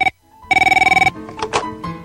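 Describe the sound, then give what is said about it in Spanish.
Telephone ringing as a call is placed: a loud, rapidly pulsing electronic trill lasting about half a second after a brief opening tone, followed by further mixed tones. “Voy a concederles el gran favor de llamar a mi siempre incondicional Justin para que se lo demuestre. Llamando.”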